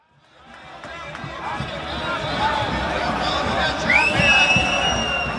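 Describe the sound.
Crowd noise in Vienna, Austria: a dense babble of many voices swells from near silence into a steady roar, with a whistle-like tone rising near the end.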